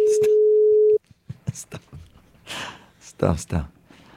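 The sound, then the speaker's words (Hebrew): A single steady electronic tone sounds for about a second on an outgoing phone call that goes unanswered, then cuts off abruptly, followed by breathy sounds and brief voices. “אנחנו מתקשרים לרותי ברודו. עכשיו, אם היא עונה, אני רק עושה לה ומנתק.”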